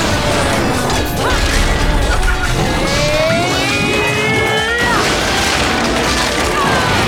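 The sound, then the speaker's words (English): A torture attack in an action video game brings loud mechanical clanking, grinding and crashing impacts. The noise is dense and constant, with a heavy thud partway through. “We torture attack one of them. We torture attack the other one.”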